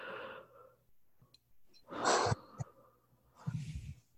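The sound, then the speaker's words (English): A deep breath during a guided relaxation exercise: a long, airy inhale followed later by a softer breathy exhale, quiet overall with faint small noises between. “Take a deep breath.”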